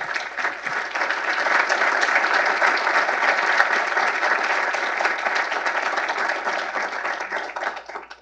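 Audience applause greets the president of the Heritage Foundation at an event in Washington, D.C., before a full auditorium. Dense, steady clapping stays loud for the whole stretch and thins only slightly at the very end.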